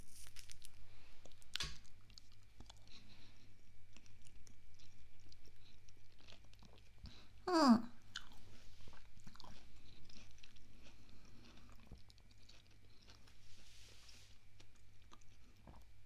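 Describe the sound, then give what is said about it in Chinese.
Someone tasting and chewing food, with faint, soft bites and crunching mastication throughout and one brief louder burst midway. “那，你尝尝。我先吃吗？那我尝尝。”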